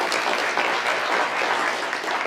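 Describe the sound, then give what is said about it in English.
Audience applause celebrating everybody at a Glover U Coaching event, a dense, steady wash of clapping that carries on alone for about two seconds without a break. “Let's hear it for everybody.”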